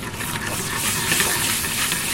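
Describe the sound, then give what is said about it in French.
Butter foaming in a hot frying pan: a dense, steady sizzling hiss with fine crackling texture that holds evenly from start to finish, with no voices. “Là, le beurre est en train de mousser. Alors il doit pas brûler, bien sûr.”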